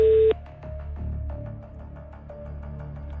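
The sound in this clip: Telephone line tones on an outgoing call to a contest candidate: a loud short tone at the start, then a fainter steady tone running over rhythmic background pulses.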